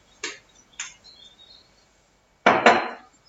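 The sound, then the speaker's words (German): A lid goes onto a kitchen container while a dish sweetened with maple syrup is being made: two light clicks, then a louder double knock, separated by near silence. “Dann machen wir den Deckel drauf.”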